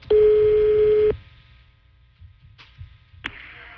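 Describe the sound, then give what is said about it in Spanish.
A telephone tone as a call is placed to a seafood business: a loud steady tone held for about a second, then near quiet broken by two brief short tones. “Estoy marcando. Estoy marcando.”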